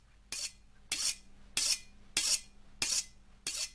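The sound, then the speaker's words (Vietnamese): A knife is drawn across a whetstone resting on a coffin lid: six evenly spaced, rasping strokes with metallic scraping, each a short burst followed by a brief pause, steady in rhythm and moderately loud. “Thím mài dao xoèn xoẹt xoèn xoẹt.”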